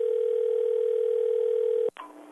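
Telephone line tone when calling the Ogden, Illinois police department: one steady, unbroken low tone lasts about two seconds, then cuts off abruptly with a click.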